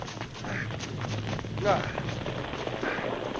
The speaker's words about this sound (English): In the face of the sudden catastrophe, it was a case of every man for himself. The two claim jumpers who had just passed through the doorway wheeled and ran as the mountain seemed to cave in behind them.